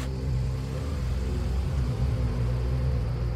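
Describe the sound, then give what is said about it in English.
A car on a road gives off a low, rumbling engine drone. The deep hum stays steady and fairly quiet throughout, with no clear surges. “I think I see a car coming.”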